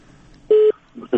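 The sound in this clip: A brief steady electronic telephone tone, a single beep as a call connects to a listener, sounds once and stops abruptly, followed by a short burst of other sound that may be voices.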